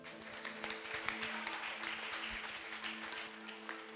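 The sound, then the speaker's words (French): An audience applauds during a sermon at a worship service. The clapping is faint and continuous throughout, with low sustained tones underneath. “Acclame Dieu pour les bêtes.”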